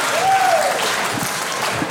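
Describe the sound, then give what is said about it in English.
Thin applause from a stand-up comedy audience after a joke: a steady patter of clapping that holds at an even, moderate level. “Not as many claps on that one.”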